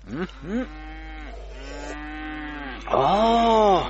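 Water buffalo lowing: two short rising calls, then a long, low drawn-out moan, and finally a louder, rich call that swells and fades. No voices are heard.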